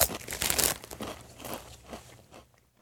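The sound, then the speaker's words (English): Lay's Game Day chili flavored potato chips crunch between the teeth, a few loud crisp bites followed by softer chewing and crinkling that fades to near silence, with no talking. “let me give these a whirl. Again, Lay's Game Day chili flavored. That's it, just stops there. I guess it's potato chips.”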